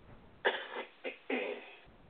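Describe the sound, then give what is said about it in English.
Three dry, raspy coughs from a smoker with a froggy, congested chest, close together and fairly soft. The first and last are longer, and the middle one is short. “I did go to see a pulmonologist about this cough that's going on and how I get all froggy inside”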